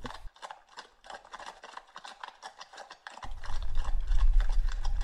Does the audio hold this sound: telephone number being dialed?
no